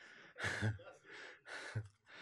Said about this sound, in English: I need to dance more. I need to do more cardio. I'm still breathing hard. Help me, Jesus. Pant through this one.